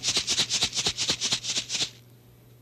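Garden seeds rattle inside a packet under steady, rapid shaking: many even, crisp pulses in a brisk rhythm, then an abrupt stop into near silence.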